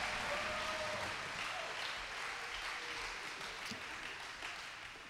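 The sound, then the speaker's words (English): A church audience applauds children during a service. Dense, continuous clapping stays fairly quiet throughout and tapers slightly toward the end. “Let's make some noise for our children. Come on, we love our kids.”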